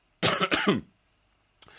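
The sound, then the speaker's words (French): Throat clearing and coughing: three quick, harsh bursts run together, then after a short silence a briefer, softer cough follows. “excusez-moi, un chat dans la gorge, sort de là le chat”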